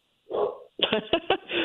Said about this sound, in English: I'm sorry about that. We're actually babysitting my daughter's dog